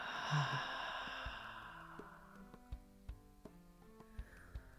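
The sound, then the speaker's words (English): A slow, gentle breath in and out during a guided breathing exercise, a soft airy rush that fades as quiet plucked musical notes sound at a steady, even pace. “taking a soft, gentle breath into the heart center, gently breathing in and out.”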